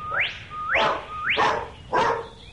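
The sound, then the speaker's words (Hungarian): A dog gives four evenly spaced yelping cries, each a short whine that rises sharply in pitch and breaks into a rough, noisy bark-like burst, fairly loud and alone without voices. “Mit ér ez a kutya?”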